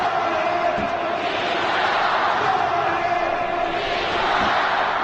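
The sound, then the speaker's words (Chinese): Football stadium fans cheer as the announcer leads them. The crowd forms a continuous loud roar of massed voices with no clear breaks from start to end. “我们能够听到现场啊，主持人啊带领着全场的球迷在给基西加油。”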